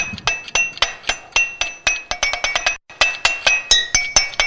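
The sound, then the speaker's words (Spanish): Drinking glasses filled to different levels are struck like a xylophone, giving many quick, bright clinks at varying pitches in a lively rhythm, with one short pause midway. “yo no creo que con vasos se pueda hacer el sonido de un xilófono. Miren, obviamente hay que llenar los vasos a distintos niveles, ¿no? Pero miren.”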